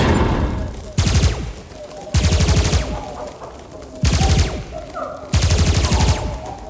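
Rapid weapon fire during a fight against alien creatures aboard a starship comes in four separate loud bursts of fast repeated shots, with quieter gaps between each volley.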